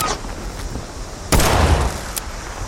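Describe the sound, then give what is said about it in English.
Pistol gunshots in a video game: a loud, sharp burst of fire followed by a brief crack, over a steady bed of background game noise. “Hey, this pistol's working out pretty good, except at that distance where it didn't do much damage.”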